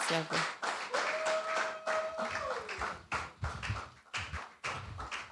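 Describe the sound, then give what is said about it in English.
Hands clapping as an audience welcomes a reverend to speak at a health talk held in a church; several loud, separate claps and thuds in an uneven rhythm, fading briefly between bursts. “Okay, so let's put our hands together as we welcome Reverend Israel.”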